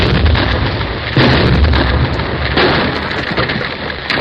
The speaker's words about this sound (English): A big blast will start the whole hill sliding down to my tunnel. It might bury our machinery under 10 feet of rock.